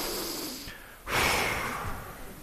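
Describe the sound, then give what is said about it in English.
A group of people in a room take a deep breath together and then exhale as one, a quieter airy intake followed by a loud, broad whoosh of breath that slowly fades. “we're all going to take a big inhale and we're going to exhale together”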